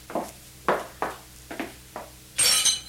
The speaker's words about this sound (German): Was ist passiert, Erika? Ich habe eine Untertasse fallen lassen. Ist sie kaputt? Ja, leider.